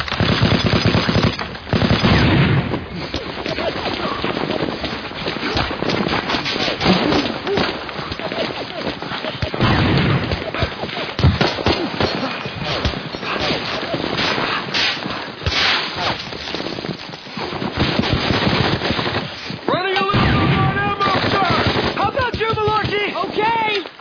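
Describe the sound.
Machine-gun and rifle fire lay down covering fire during an infantry assault: dense, loud, nearly continuous bursts of gunshots run throughout, with shouted voices mixed in among the shooting.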